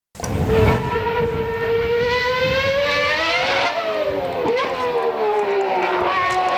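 Formula 1 race cars on the Monaco circuit produce a loud, continuous high-pitched engine whine with layered harmonics. The pitch drifts and dips sharply a couple of times.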